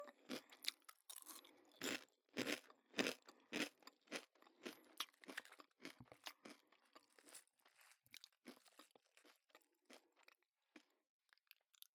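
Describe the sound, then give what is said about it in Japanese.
Taco chips crunch between the teeth in many sharp, crackling bites and chews, loud at first and then a little softer, with no talk. “タコスチップスのパリパリの音、これがまた香ばしい。”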